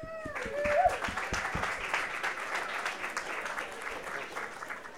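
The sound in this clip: An audience applauds to welcome a radio host who is moderating an evening event about a documentary film. A brief vocal whoop at the start gives way to steady, dense clapping that holds at an even level throughout.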